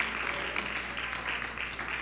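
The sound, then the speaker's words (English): A church audience claps for the Lord, a dense, continuous patter of many hands, moderately faint and even in level throughout. “Give the Lord a good hand clap.”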